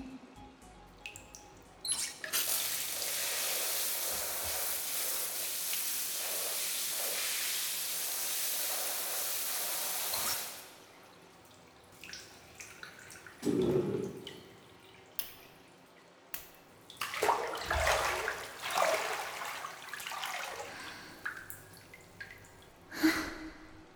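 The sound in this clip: Water moves in a hot bath: a steady rush of water lasts several seconds, then gives way to scattered small splashes and drips, faint throughout.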